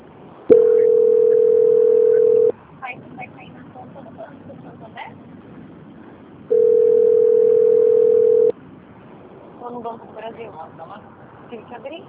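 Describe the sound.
Two long, steady telephone line tones of about two seconds each play while a bank call is transferred to quality control. Faint background murmur of voices fills the gap between them and continues after.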